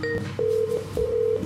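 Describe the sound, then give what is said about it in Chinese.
Telephone tones mark an incoming call being taken, a few steady mid-pitched beeps separated by short gaps over a low background hum. “是不是有电话入啊？有啊， 好啊，那就接电话”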